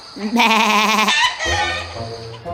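Sheep bleating in a children's story about an old man trading animals at a market: two loud, wavering, nasal bleats, the first higher and tremulous, the second lower and steadier.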